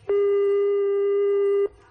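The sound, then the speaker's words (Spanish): Telephone ringback tone from a call placed to the police that goes unanswered: one long, steady, mid-pitched tone lasting about one and a half seconds, loud and alone, starting and stopping abruptly. “Parece que no contestan a nuestra llamada.”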